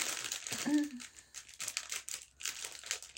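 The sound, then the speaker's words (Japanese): A plastic inner bag crinkles and rustles as someone handles it while trying to open it, giving irregular bursts of crackling, with a short voiced sound early on. “でこれちょっと内袋開けるのにハサミが必要かな、ハサミが必要かな”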